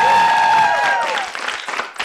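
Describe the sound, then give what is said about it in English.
Applause for an introduced guest: a sustained tonal sound glides downward, then fairly loud clapping breaks out and continues briefly. “Let's hear it for Eric Lamberg on the PT Pinecast.”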